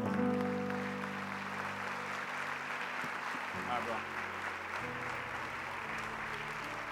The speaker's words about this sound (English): Can you give Jesus a 10 times greater hand than that? Come on, Kingdom, that wasn't 10 times.